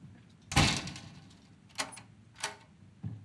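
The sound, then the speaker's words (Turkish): A door is locked at night: four sharp knocks and clicks with quiet pauses between them, the first one heaviest. “Kapın kilitli mi diye bakmaya geldim. Aşk olsun baba. Tamam, kilitliyorum. Hadi kilitle.”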